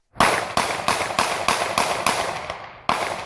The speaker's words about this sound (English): Eight shots heard across the nation have not silenced the debate.